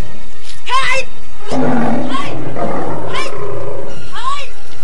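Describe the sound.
A tiger nearly as big as a calf roars in several loud, rough bursts, with growling and snarling filling the gaps between them.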